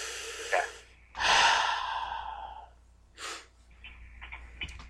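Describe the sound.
A person takes a big deep breath: a short sniff, then a long, loud, airy inhale and exhale, followed by a few shorter, quieter breaths and small breathy noises.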